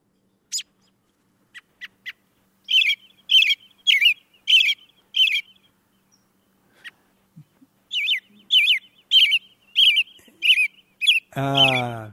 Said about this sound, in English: Let's play that American Robin once more.